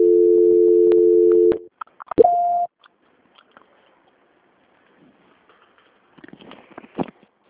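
Telephone call transfer tones on a bank's line: a steady, loud, low hum lasting about a second and a half, then a brief click and a shorter higher beep, followed by faint scattered rustling.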